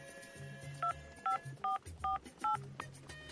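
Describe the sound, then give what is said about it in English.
Five evenly spaced telephone keypad beeps as a voicemail password is entered, each a short two-tone chirp over a faint background hum. “Voicemail. Please enter your password.”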